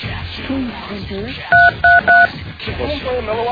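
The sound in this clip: Three short telephone keypad dialing tones beep in quick succession, loud and steady in pitch, while people talk before and after them.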